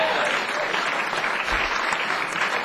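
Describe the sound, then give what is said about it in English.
Audience applause at a live show as fans clap for the band's tour manager: dense, steady clapping that holds at an even loudness throughout, with no gaps. “our tour manager, Shep, and I want you all to clap for him right now.”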